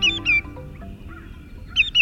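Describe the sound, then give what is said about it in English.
Shorebird calls from a greater yellowlegs, a wader with bright yellow legs: loud, high, piercing whistled notes come in a quick pair at the start and again at the end, with a faint gap in between and no talk. “True to their name, greater yellowlegs are shorebirds with bright yellow legs and feet.”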